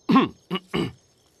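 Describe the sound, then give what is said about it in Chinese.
A person coughs three times in short, dry bursts: a fuller first cough, then two quicker ones, followed by silence. “于是咳了几下”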